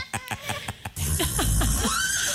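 A horse-like whinny: a few short, pulsed bursts, then a louder, sustained, quavering call whose pitch falls toward the end.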